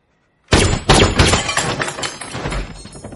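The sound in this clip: Gunfire in a crime thriller scene: two sharp, loud bangs about half a second apart, followed by a rattling, crackling decay that lingers for a few seconds.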